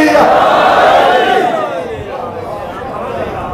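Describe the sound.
A crowd shouts the Shia slogan Naara-e-Haidari in unison, a loud massed roar of voices that holds strongly for about the first half, then drops to a softer, sustained level.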